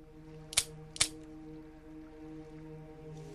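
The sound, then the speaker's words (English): Two sharp, dry clicks from the trigger of an empty pistol come about half a second apart, brief and crisp over a faint, steady low hum. “Jack looks at Henderson, who pulls the trigger of his gun.”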